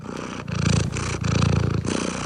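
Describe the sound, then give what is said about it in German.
An elderly female cat purrs steadily, a loud low rumbling that swells and dips in repeated breath cycles, with no voices. “Das ist die älteste Dame aus der Riege der Katzen.”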